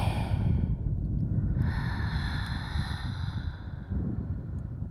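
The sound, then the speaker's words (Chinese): A deep inhalation during a breathing exercise, drawn in as a long, airy rush of breath lasting several seconds, fairly loud and with no talk. “再吐气，继续，别停。吸气，”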